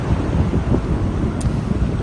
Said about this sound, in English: The churning, splashing, rushing water. Isn't that gorgeous?